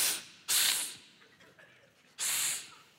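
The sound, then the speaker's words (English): A person voices a hiss in imitation of a man hissing, two breathy, loud bursts of hiss separated by a quieter pause, with no other sound. “He hissed at me.”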